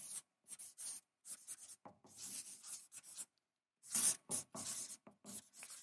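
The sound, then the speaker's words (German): A pen scratches across paper as notes are written, in a series of quick, rasping strokes separated by brief pauses. The sound is faint, with no voices. “Ich schreibe auf, ähm, in ruhigen Zeiten, in unruhigen Zeiten,”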